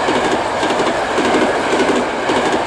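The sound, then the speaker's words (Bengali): A train rolls along on rails, a loud, continuous rushing clatter with steady rhythmic wheel clicks and no voices. “দেখো দেখো train,”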